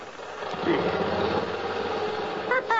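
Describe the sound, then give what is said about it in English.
A small motor runs with a steady buzzing whir, belted around a tree to shake its leaves loose, holding an even tone throughout. “All you do is wrap the belt around the tree and then around the motor. Then you fasten the buckle, and you're all set to shake those leaves right out of their sockets.”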